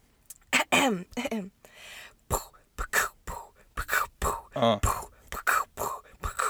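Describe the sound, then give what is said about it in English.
Amateur beatboxing, a voice imitating drums with breathy mouth percussion, clicks and puffs of air in a steady rhythmic pattern of short, sharp bursts, performed alone. “Please excuse my sad beatboxing.”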